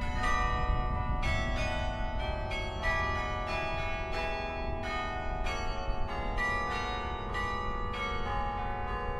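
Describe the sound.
Carillon bells ring out from outside the tower, many struck tones overlapping in a continuous melodic peal that stays fairly even in loudness.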